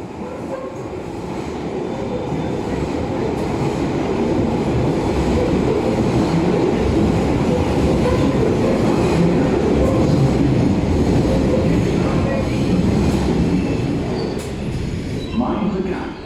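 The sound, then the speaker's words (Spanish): A London Underground metro train running on its tracks, a loud, continuous rumble and rattle that holds steady from start to finish. “El metro de Londres esconde mucho más que vías de tren”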